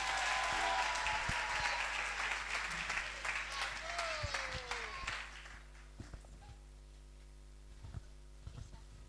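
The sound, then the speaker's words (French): An audience at a worship gathering applauds for the children: loud, dense clapping that lasts about five seconds, then fades to a few scattered claps. “On va acclamer encore pour les enfants.”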